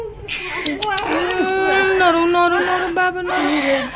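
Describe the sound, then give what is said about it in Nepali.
A newborn baby cries while being weighed at a health clinic, a loud, continuous wailing cry with strained, wavering pitch that fills the whole clip with barely a pause. “Aatir नरौ न, तिम्रो तौल लिन लागेको त हो नि।”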